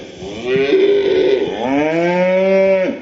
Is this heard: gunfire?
no